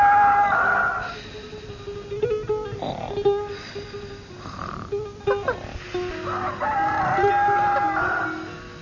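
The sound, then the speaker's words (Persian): A rooster crows in the early morning, giving one long, strained crow at the start and another near the end, with quieter rustling and low sounds in between. “صبح زود خروس شروع به خوندن کرد.”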